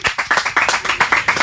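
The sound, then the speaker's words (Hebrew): Audience applause in a studio after a singer's interview: rapid, fairly even claps from a small group, loud and rhythmic, with many sharp hits packed closely together. “תנו לה כפיים!”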